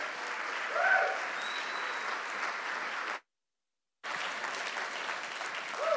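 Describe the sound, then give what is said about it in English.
A church audience at Pacific Baptist Church in Long Beach, California, applauds as a guest evangelist comes forward. The clapping is dense and steady, breaks off into a moment of silence, then resumes just as full. “why don't we give him a warm Pacific Baptist welcome as he comes”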